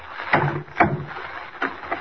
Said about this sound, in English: Why, the door isn't even locked. It's open.